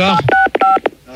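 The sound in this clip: Phone keypad DTMF tones pressed to play a tune: two short, steady beeps sound amid quick French speech from people talking over them.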